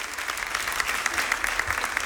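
Dense, steady applause during the Pope's visit to Brians 1 prison as an inmate receives a rosary, a continuous crackling wash of many hands with no pause.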